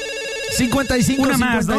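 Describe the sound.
Electronic ringtone of a telephone signalling an incoming call: a steady sustained tone, then a loud run of warbling, melodic electronic notes.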